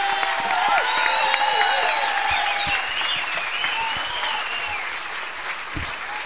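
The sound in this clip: An audience applauds to welcome performers onto a stage, with dense, steady clapping that stays loud and even throughout.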